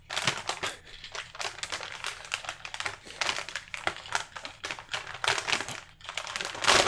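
A brown paper bag crinkles and crackles as it is stabbed, giving many sharp, irregular bursts of rustling throughout.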